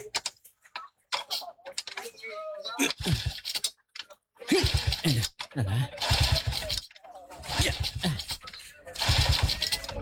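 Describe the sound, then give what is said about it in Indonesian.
A motorcycle engine is kick-started again and again but fails to catch, giving a few short bursts of low sputtering and cranking with pauses between them while a person talks throughout. “aneh mentoh yo diselah kok enggak bisa toh lah sopo meneh iki trouble apa lagi toh ini.”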